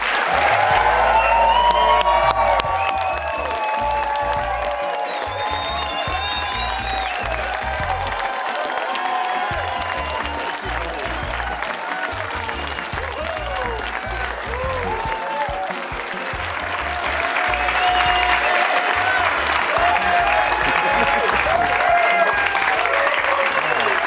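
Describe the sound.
A studio audience applauds to welcome a guest on a talk show. The clapping is loud and sustained throughout, with cheering and voices mixed in.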